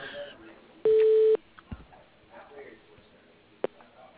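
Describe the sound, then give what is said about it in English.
Phone call being put through to voicemail: a single steady electronic line tone of about half a second, followed by a couple of sharp clicks over faint line noise. “Hold on, I'll put you through to her voicemail.”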